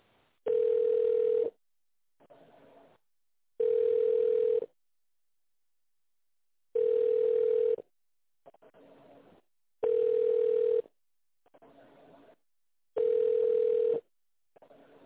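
A telephone line tone plays while a call is being transferred: five steady, mid-pitched beeps, each about a second long, repeat roughly every three seconds, with fainter tones in the gaps.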